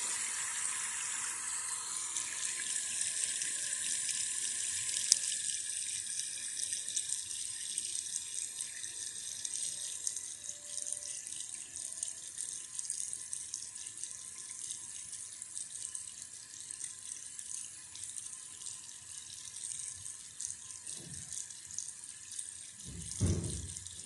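Water running from a tap into a sink, a steady, fairly soft rushing hiss that continues throughout, with a couple of low thumps near the end.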